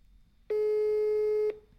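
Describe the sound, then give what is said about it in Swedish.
Telephone tone during a call: a single steady electronic beep about one second long, pure and evenly loud, rising sharply out of near-silence and stopping abruptly. “Du, nu har Runken ringt.”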